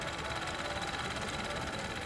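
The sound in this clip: A sewing machine motor running while masks are sewn, a fast, even whirr with fine rhythmic pulsing that stays at one level throughout, with no talk.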